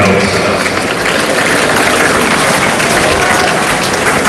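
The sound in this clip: Crowd applauding in a tennis stadium during a match: loud, dense, continuous clapping that stays steady and unbroken throughout the few seconds.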